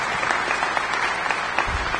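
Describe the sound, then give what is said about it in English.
A crowd applauds at a prize-giving for a competition: steady, dense clapping that continues through the whole clip at an even, fairly loud level, with a few individual claps standing out from the rest. “so we'll just clap for them because they were there”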